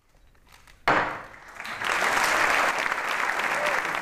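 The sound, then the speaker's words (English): A single sharp gavel tap marks a same-sex wedding ceremony, followed by applause that swells quickly and holds steady to the end. “A tap of a gavel and a kiss.”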